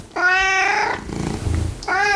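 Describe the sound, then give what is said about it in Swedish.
A 16-year-old cat meowing during a veterinary health checkup: two loud, drawn-out meows with a rich, layered tone, separated by a stretch of low rustling, the second meow cut short. “ska vi träffa en katt som kommit in för hälsokontroll”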